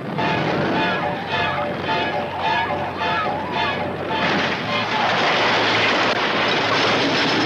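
Roller coaster cars run along the track with a loud, continuous mechanical rumble and rattle that grows rougher and noisier in the second half.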